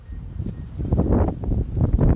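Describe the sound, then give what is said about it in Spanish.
Strong storm gusts from the Hortensia depression roar in a dense, low, rushing rumble that swells and surges throughout. “Fuertes rachas de viento, como escuchamos, que han superado en algunos lugares los 130 kilómetros por hora.”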